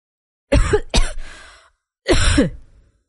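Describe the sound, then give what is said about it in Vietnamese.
Repeated coughing from someone who nearly choked on their own saliva: two quick, harsh coughs, a short pause, then a third loud cough, with no other sound around them. “Bất chợt A Hắc ho liên tục khiến Lão Hổ cau mày.”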